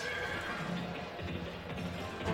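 A horse whinnies as a radio-drama sound effect while the heroes ride off across the Crimson Plains, a drawn-out, strained neigh set against a constant noisy background.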